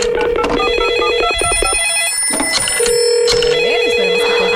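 A telephone rings on an outgoing call to a contest winner: loud, repeating electronic ring tones layered with other steady tones, with no voices.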